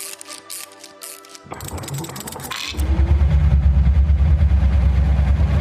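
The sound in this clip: A heavy vehicle engine drives through tunnels, its deep rumble swelling in after some lighter clatter and then holding loud and steady.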